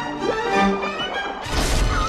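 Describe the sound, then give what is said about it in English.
A heavy smash effect of a giant shark crashing through a window in an animated underwater scene: one loud crash bursts in about two-thirds through, after a quieter tonal opening. “The giant shark crashes through the window, snapping its sharp teeth at them.”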